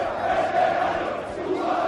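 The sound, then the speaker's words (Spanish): Valencia football supporters protesting outside the Mestalla stadium, a loud sustained roar of many voices with a chanted, tonal quality that holds steady throughout the brief moment. “Este es el sonido de la afición del Valencia.”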